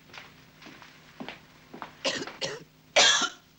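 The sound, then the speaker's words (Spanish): A sick man sitting on a cot in a pigsty coughs repeatedly, a series of rough coughs that grow louder, ending in a harsh, heavy one. “Rizzo tose sentado en el catre de la pocilga”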